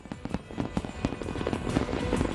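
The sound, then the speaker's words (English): A fireworks show goes off in many sharp, irregular pops and bangs, fairly faint overall, with the bursts coming thicker toward the end over a low rumble. “There was a spectacular fireworks show.”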